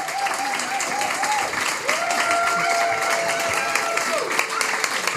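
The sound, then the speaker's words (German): Audience applause rings out for two producers seated on either side of a stage, a steady, dense wash of clapping with voices heard over it. “Und jetzt mach mal bitte einen dicken, fetten Applaus für Sophia und Max.”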